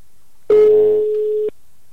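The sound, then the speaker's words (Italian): A single telephone ringback tone sounds on the line while a call to an uncle goes through: one steady, mid-pitched buzzing tone lasting about a second, then silence and a faint click at the end. “mi gioco l'aiuto da casa e chiamo lo zio Benedetto”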